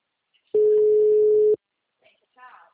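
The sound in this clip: Telephone ringing unanswered: a single steady, mid-pitched ring tone lasting about one second, followed by silence and a faint, brief voice.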